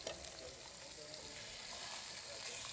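Fish frying in olive oil with garlic gives a dense, steady hiss and crackle that stays loud and even throughout, with small pops scattered across the sizzle and no talking.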